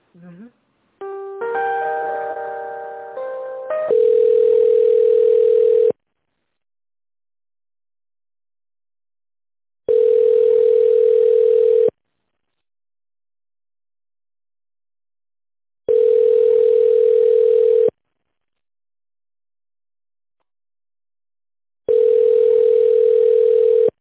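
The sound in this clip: Telephone line tones while a call is transferred: a short run of electronic melodic beeps, then four long steady tones of about two seconds each, separated by roughly four-second silences.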